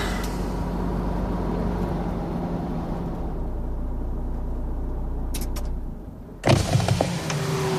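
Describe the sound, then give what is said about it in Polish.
A truck tractor pulling a trailer eases onto the roadside for a traffic check. Its engine holds a low, steady rumble, then a short burst of rattling and knocking sounds near the end. “No, zjeżdżaj na pobocze, tylko powoli.”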